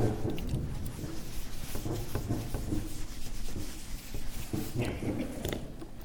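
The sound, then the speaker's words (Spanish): An eraser rubs a drawing off a board in steady, scratchy back-and-forth strokes that repeat without pause throughout. “entonces voy a borrar aquí este dibujo.”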